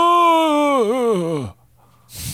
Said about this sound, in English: Back to the groan tube.